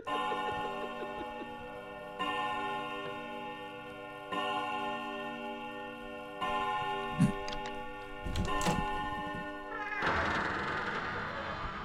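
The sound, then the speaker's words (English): A clock strikes five in the morning with slow, resonant chime strokes about two seconds apart, each ringing on into the next, before a different, noisier sound takes over at the end. “My eyes are closed because I'm asleep. The clock strikes 5 a.m.”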